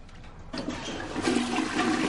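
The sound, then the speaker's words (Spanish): A toilet being flushed in a bathroom: a rushing swirl of water that swells after a moment and keeps surging steadily to the end. “Echa el papel al inodoro y tira de la cadena.”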